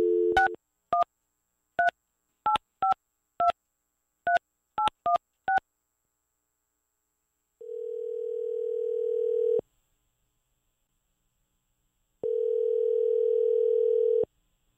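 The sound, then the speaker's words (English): Telephone keypad tones beep in a quick series of about ten, followed by two long, steady ringing tones separated by silence, as a phone call is placed to a contest winner. “stand by because we're about to call this week's grand prize winner.”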